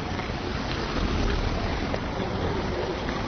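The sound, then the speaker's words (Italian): Rain falling outdoors during a walk in hot weather, a steady, dense hiss that stays even throughout with no voices. “finalmente sta piovendo perché è un caldo da Madonna incredibile. E adesso farò una passeggiata sotto la pioggia, registrando.”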